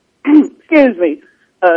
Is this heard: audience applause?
no